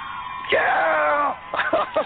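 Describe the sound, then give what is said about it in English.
Whooping cheer from a voice, a loud sustained yell followed by a few shorter excited bursts. “Black Widow is a very good answer for the female, so I am going to cheer you.”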